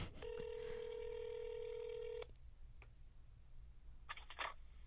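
Telephone keypad tones as a number is dialed: a long, steady electronic tone comes first, then a quick run of short beeps near the end. The tones are faint, with no talk.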